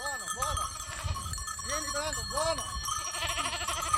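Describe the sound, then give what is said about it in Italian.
Cashmere goats, a hardy rustic breed kept on marginal farmland, bleat repeatedly. Several wavering, nasal calls rise and fall and overlap one another over a low background murmur. “La scelta è caduta sulla capra cashmere perché è una capra molto rustica.”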